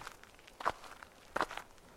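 Footsteps of a limping person walking down a road with someone's support. Two distinct, firmer steps stand out amid faint shuffling, quiet and without voices.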